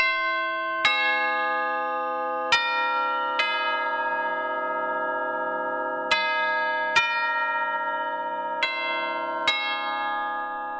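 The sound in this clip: Orchestral chimes struck in a library's central branch to mark the end of the day: seven bright, resonant strikes at uneven intervals, each ringing and decaying into the next over a quiet background.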